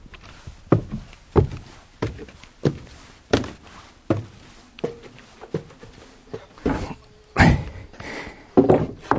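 Footsteps climbing steep, dimly lit stairs inside a bell tower, many regular dull thuds at a steady walking pace, each step landing with a hollow knock.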